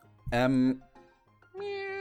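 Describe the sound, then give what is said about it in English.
A person imitates a cat's meow with two loud, drawn-out, tonal meows separated by a short pause. “Now I'm a cat.”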